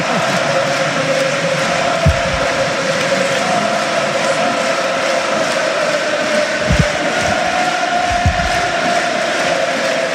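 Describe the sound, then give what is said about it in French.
A football crowd cheers at Saint-Mamès stadium in a steady, continuous roar that stays loud and even throughout, with a few faint low thumps beneath it. “Un super moment hein, ici au stade Saint-Mamès. Un public qui communie avec son équipe”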